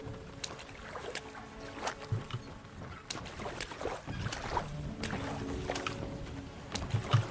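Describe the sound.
A small boat tied up with a rope rests on water under a continuous watery rumble and sloshing, with scattered sharp knocks and clunks throughout.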